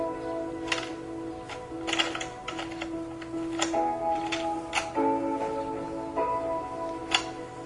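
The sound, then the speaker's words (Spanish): Plastic clicks and clunks as a woman's hands insert a cassette tape into a player: several sharp ticks at irregular intervals over a steady humming tone. “Las manos de hombre conectan un grabador. Las manos de mujer cogen una cinta cassette y la introducen en un reproductor.”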